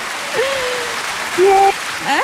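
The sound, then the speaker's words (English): Applause for a correct quiz answer forms a steady wash of clapping beneath a few speaking voices. “Well done, a round of applause for you.”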